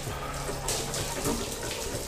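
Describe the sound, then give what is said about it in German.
A hot shower running, a steady dense hiss of spraying water that continues without a break at an even level, heard alone without talk. “Also stand er eine halbe Stunde unter der heißen Dusche.”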